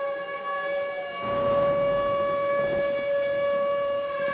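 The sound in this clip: A tornado warning siren in the Midwest, a civil defense siren sounding one steady, loud, harmonic wail that swells slightly after the first second and holds without speech.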